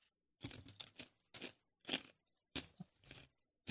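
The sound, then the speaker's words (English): Crunchy chips being eaten: many loud, crisp crunching bursts in an irregular chewing rhythm, separated by short silences, with no talk. “This is ASMR. Man, chips and the, it sounds really good.”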